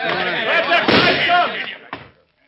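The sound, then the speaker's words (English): A single sharp gunshot in a radio drama cracks out right after loud, overlapping shouted voices, then the scene drops into silence. “He done it. He shot himself.”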